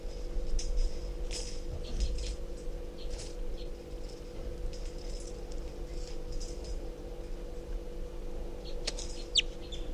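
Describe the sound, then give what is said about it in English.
Faint, brief calls of a wild bird come in a few scattered bursts over a steady low hum, sounding thin and weak rather than full song. “Very weak calls. Wild bird's still here.”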